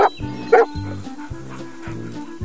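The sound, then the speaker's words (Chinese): Dog barking at a frisbee dog competition as it catches a flying disc: a few sharp, loud barks in a steady rhythm, with brief yips between them. “你看，那只狗狗好帅哦，咻一下就接到飞盘了。”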